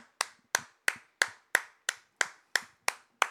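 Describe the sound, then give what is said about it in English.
Ten slow, evenly spaced handclaps, each sharp and fairly faint, in a steady rhythm with quiet gaps between them and no voices. “Now, where, where's the actual applause in here? Uh, let's see. Is it right here? There it is.”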